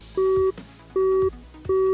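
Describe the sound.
A telephone busy tone after a call ends: three identical steady beeps at an even, regular pace, loud and clear with short gaps between them.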